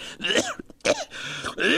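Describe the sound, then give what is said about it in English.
Coughing and throat clearing from an elderly man with a lingering cough left over from the flu, several rough, hacking bursts mixed with voiced, groaning sounds, loud and with no talk. “Oh, that cough of yours just doesn't seem to clear up.”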